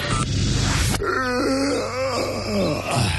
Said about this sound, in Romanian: Căscatul e contagios, băi.